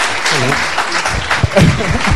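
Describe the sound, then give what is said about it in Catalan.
Audience applause for a guest at a live event, a few seconds of steady clapping mixed with voices. “Un aplaudiment.”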